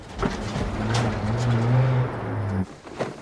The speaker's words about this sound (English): The pickup drives off into the darkness.